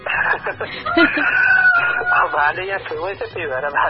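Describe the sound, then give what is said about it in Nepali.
A rooster crows in the morning at a caller's rural home, its drawn-out cry faint and tangled beneath steady voices talking over a phone line. “तपाईँ बोल्नुभन्दा अगाडि भालेले नै अब सङ्केत गराएपछि”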